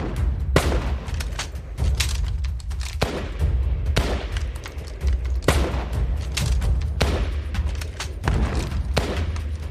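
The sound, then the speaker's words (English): Gunfire in the Wairau clash as Ngāti Toa men fire from bush cover on a party of road workers: many sharp, irregular shots in steady succession over a constant low rumble, with no voices. “So from then on, the firing starts.”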